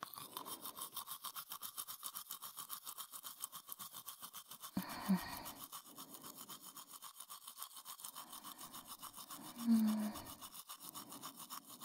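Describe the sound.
A toothbrush scrubbing teeth, pushed far back in the mouth, in a fast, steady rhythm of many quick strokes that runs throughout, faint but continuous.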